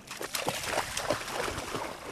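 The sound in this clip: Soft splashing and sloshing water as a dog wades and sniffs around in a storm-surge-hit neighborhood, a faint, continuous watery texture with a few slightly stronger splashes scattered through.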